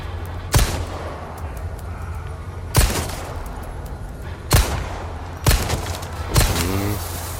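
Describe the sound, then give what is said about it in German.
Dynamite explosions in a video game: five sharp, booming blasts at uneven intervals, each rising abruptly above a steady background rumble. “Der wirft mit so Dynamit. Die haben hier eine riesige Bombe nachgeschmaßt.”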